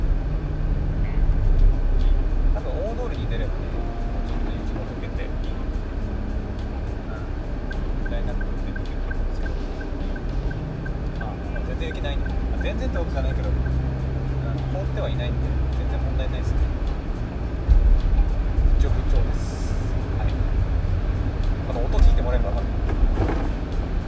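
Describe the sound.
A car drives along a narrow country road, its interior filled with a steady, low road-and-engine rumble that holds evenly throughout, with talk over it.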